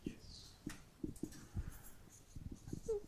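Pen or marker strokes scratch out a word on a writing surface, many short scratchy bursts in an irregular rhythm with brief pauses between letters, moderately quiet and without talk.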